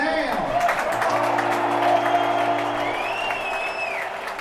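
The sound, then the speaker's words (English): Fenway Park crowd cheering and applauding for pitcher Chris Sale, a steady, loud roar of clapping and voices with someone speaking over it. “Fans cheered loudly for pitcher Chris Sale, a new arrival who will start the team's next game.”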